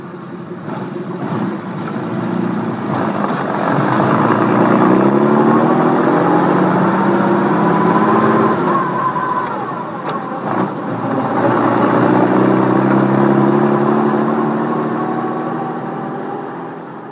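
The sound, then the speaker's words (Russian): A car engine roars as the car pulls away at night from outside a church. The rumble is loud and steady for about seventeen seconds, easing briefly near the middle before swelling again. “Приятели уже ждали их в автомобиле. Взревел двигатель”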